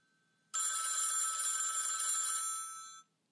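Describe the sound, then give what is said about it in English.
A telephone rings in a single continuous burst of about two and a half seconds, a bright, high electronic trill that starts abruptly and tapers slightly before cutting out against near silence. “Yep, that's the phone ring.”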